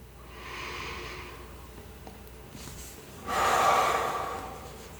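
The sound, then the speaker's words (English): Slow, deep breathing during a calming relaxation exercise: a soft, airy inhale swells and fades, followed by a louder, fuller exhale. No voice is heard. “take a slow breath in and a calming breath out”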